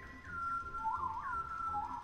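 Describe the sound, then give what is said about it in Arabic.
A bird gives its false alarm call to keep its female from flying off to another male, a faint series of clear whistled notes sliding up and down in pitch, repeated over a quiet background. “الطير هاد بيطلق هاد الصوت عشان ما تبعد الأنثى عنه وتروح لحدة تاني”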